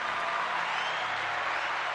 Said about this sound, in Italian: Un bel applauso!